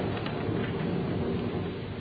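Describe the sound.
Rain pours in a steady, continuous hiss with a low rumble underneath during a night-time lightning storm. No voices are heard.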